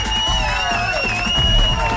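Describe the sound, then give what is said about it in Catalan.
Audience cheering and whooping greets a guest arriving on a live show, a steady, dense crowd roar with high, whistle-like tones above it. “Rebem amb un fort aplaudiment el flamant ministre de clavegueres de l'Estat de Gràcia, Carlos Enrique Bayo.”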